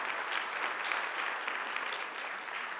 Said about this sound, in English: Can we just give all of them a round of applause for all of their work?